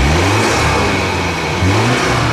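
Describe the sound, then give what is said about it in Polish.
A police car's engine, a 252 hp automatic four-wheel-drive, revs loudly as a steady, dense roar with low droning tones that shift slightly in pitch, and no talk over it. “Przedstawiam tutaj państwu pojazd o mocy 252 koni mechanicznej w automacie z napędem 4x4.”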